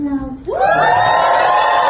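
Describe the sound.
Wedding guests cheer and whoop at a celebration where Adele officiated and sang for her best friend: a single voice at the start gives way to a sudden, loud swell of crowd cheering that holds to the end.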